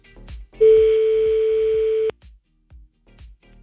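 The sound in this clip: A single long, steady ringback tone plays as a phone call is placed to a caller. It holds one pitch for about a second and a half and stops abruptly, with low rhythmic thumps underneath throughout.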